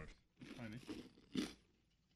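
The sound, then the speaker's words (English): Crisp crunch of a bite into a store-bought bagel, one short dry crackle standing out after a stretch of softer sound with a voice in it. “Can you hear that? It's kind of crisp. These are definitely store-bought bagels.”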